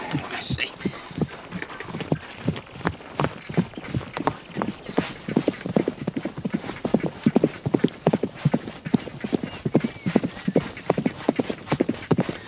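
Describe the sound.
Horses trotting along a wagon road's wheel track. Many quick, regular clip-clop hoofbeats sound loud and steady for the whole stretch.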